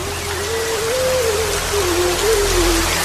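Rain falls in a steady, even hiss, joined throughout by a faint, wavering sustained tone.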